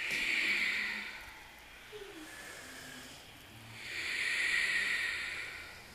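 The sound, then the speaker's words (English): Ujjayi yoga breathing in a power flow class: slow, hissing, ocean-like breaths, one fading out at the start and another swelling up later, soft and steady with no talking. “Ujjayi, breath, purposeful breath.”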